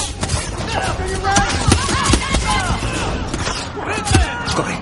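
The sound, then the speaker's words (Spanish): Gunfire as two teams shoot at each other during a war game in the 2014 science-fiction action film Divergent: many scattered sharp shots and thuds overlapping, with voices heard among them. “¡Bengala! Ambos equipos disparan.”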